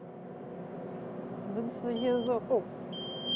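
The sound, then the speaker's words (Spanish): Car seat sensor warning beep, a steady high electronic tone that begins near the end over a low engine hum, after a brief voice. “Solo pita porque tienes el trasero levantado del asiento.”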